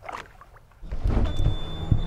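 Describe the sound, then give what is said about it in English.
A boat motor starts on a trip out from a Chicago marina: after a quiet moment it catches with a low, steady rumble that keeps running, with faint chugging pulses in it. “I'm glad the motor started.”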